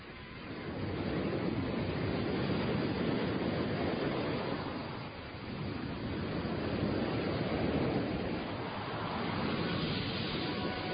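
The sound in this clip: Ocean surf where animals from a crowded colony wash in the morning, heard as a steady, broad roar of breaking waves that swells, dips briefly midway, then surges again, with no calls or voices standing out.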